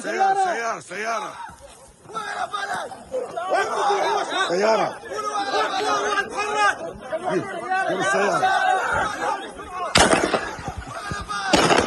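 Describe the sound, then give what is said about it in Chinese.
Gunfire from Israeli soldiers shooting at Palestinians trying to carry a wounded man to their vehicle: sharp cracks scattered under loud talking voices, with a dense burst of shots near the end. “在这一过程中，以军仍在对他们开火。以军总共向他们开了超过14枪。”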